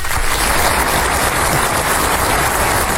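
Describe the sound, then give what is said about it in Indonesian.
An audience applauds at a kindergarten farewell performance where groups of young children sing a parting song: thick, loud clapping continues at a steady level throughout, a constant wash of many hands. “Tepuk tangan dulu semua.”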